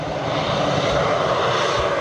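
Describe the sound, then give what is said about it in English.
Firefighting airplanes working over wildfires in Canada's Northwest Territories, dropping water: a steady, dense aircraft engine drone that holds at an even loudness throughout, with no voices. “airplanes dropping water to douse wildfires in Canada's Northwest Territories.”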